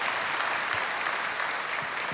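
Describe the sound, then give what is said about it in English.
Audience applause: a dense, even patter of many hands clapping that holds at a steady level for about two seconds, with no talk over it. “we'll clap for that”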